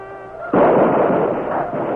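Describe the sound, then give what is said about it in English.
Heavy gunfire in an Old West battle between charging uniformed troopers on horseback and attackers caught in the open. A sudden loud burst begins about half a second in and becomes a dense, continuous roar of overlapping shots that holds to the end. “Devastating gunfire broke out.”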